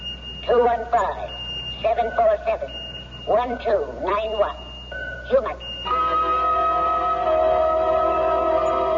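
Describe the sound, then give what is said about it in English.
Electronic beeping from a pocket alarm watch: short, high, steady tones recur between bursts of talk, then a sustained multi-tone beep runs on through the second half. “What the hell is that noise? Oh, sorry. I've got a pocket alarm watch, and it keeps trying to tell me something.”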